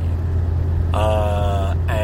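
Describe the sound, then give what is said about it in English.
A car driving along the I-25 highway toward Albuquerque gives a steady, loud low drone of engine and road rumble throughout. “I'm driving along the I-25 to Albuquerque.”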